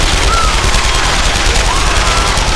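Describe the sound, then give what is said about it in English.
Submachine guns fired into a crowd of parishioners: sustained, rapid automatic fire that forms a dense, continuous, loud crackle with no break across the whole stretch. “Their submachine guns opened up and ripped into the parishioners.”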